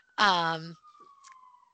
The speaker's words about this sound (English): Sorry about the sirens in the background.